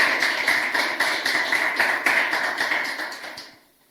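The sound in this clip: Applause at the end of a talk: brisk, rhythmic clapping that holds steady for a few seconds, then quickly fades out.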